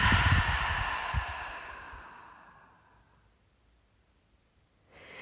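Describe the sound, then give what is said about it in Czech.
A deep exhale through the open mouth during a yoga breathing exercise, a long, breathy, audible release that starts strong and gradually fades into near silence over a few seconds. “Ještě jednou nádech vedený nosem až pod kliční kost. Otevřeme ústa a vydechneme hluboce.”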